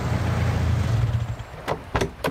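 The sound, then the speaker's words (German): A car approaching along a road near a bridge, first a low engine rumble that fades, then a few short sharp bursts near the end, with no talk. “Geh mal ein bisschen an den Rand, da kommt dein Auto.”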